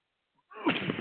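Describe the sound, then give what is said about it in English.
A single loud sneeze bursts out abruptly after near silence, a sharp, noisy explosion that fills the last half second. “I apologize deeply for that. I don't know why I'm sneezing, but there it is.”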